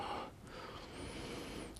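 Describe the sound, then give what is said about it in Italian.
Breathing in and out during a floor exercise with the knees spread, airy and noisy breaths flowing continuously at a soft level with no voices. “inspirando chiudo, espirando scendo e rilasso. Inspiro, espiro, inspiro e giù.”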